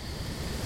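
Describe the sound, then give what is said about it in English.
A brief gust of wind, a steady rushing hiss of air with a low rumble underneath, lasting under a second. “And a couple more seconds and you'll feel a gust of wind.”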